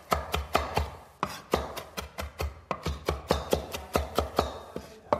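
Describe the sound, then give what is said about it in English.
A knife finely chopping parsley strikes the cutting surface in many quick, evenly spaced cuts, with one brief pause near the start and then a brisk steady rhythm to the end. “Okay, so just run your knife right through it. You want to make sure that you get a nice fine chop here.”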